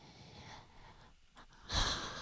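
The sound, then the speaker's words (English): A deep breath drawn by a stressed technical-support worker during a Christmas special, heard as one loud, breathy rush of air near the end after quieter low background noise. “Take a breath.”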